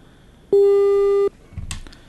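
A telephone busy tone sounds after a call is cut off: one loud, steady, mid-pitched beep lasting under a second, followed by faint rustling noise.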